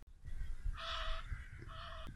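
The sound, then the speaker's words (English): Two Egyptian geese calling as they fly in on a May birdsong walk: two harsh, nasal honking calls, the first longer than the second, clear over low rumbling background noise. “that weird noise was two Egyptian geese flying in.”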